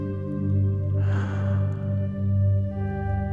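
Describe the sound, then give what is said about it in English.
During guided breathing, a slow, airy breath out rises softly and fades over a couple of seconds, above a steady, sustained musical drone. “feeling the air flood into your body, bringing with it energy and life. And breathe out,”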